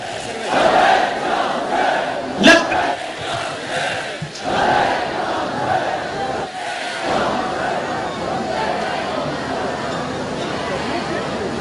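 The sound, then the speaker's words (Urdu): A crowd of men loudly chants the slogan Labbaik ya Hussain, forceful massed shouting in repeated surges with a sharp peak early on, then a steadier roar of voices. “بلند آواز سے مرد حضرات لبیک یا حسین کا نعرہ بلند کریں گے لبیک یا حسین لبیک یا زہرا”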